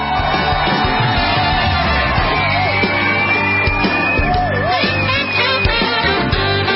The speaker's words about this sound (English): Ladies and gentlemen, please put your hands together and welcome Coach Bill Courtney.